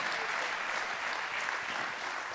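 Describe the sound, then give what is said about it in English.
Church audience clapping: a thick, unbroken wash of many hands applauding at once, fairly soft and level throughout without distinct individual claps. “That's a good place to clap, and you almost missed it.”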